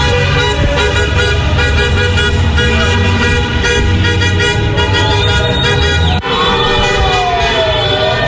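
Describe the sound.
Car horns blare without a break at a street celebration in León after a World Cup title win, loud and layered over rumbling engines and traffic noise.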